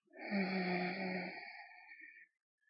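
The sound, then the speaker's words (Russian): A single long, forceful exhale during a breathing exercise, voiced and breathy, lasting about two seconds at steady strength before fading out. “Задерживаем ее в сердце и выдыхаем с силой вперед.”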